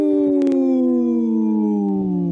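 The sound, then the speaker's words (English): A person imitates a wolf howl with one long, loud, sustained vocal tone whose pitch sinks slowly throughout. “protecting wolves for future generations. Howl!”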